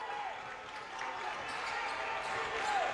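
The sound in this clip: A basketball is dribbled on the court during a college game, repeated bounces under a steady crowd murmur and talk.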